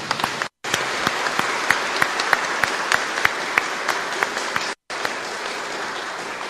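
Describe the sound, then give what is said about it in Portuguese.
An audience claps together in sustained applause, a dense steady wash with sharp individual claps standing out. Two brief dead-silent gaps cut through it. “Peço que se coloque de palmas para eles.”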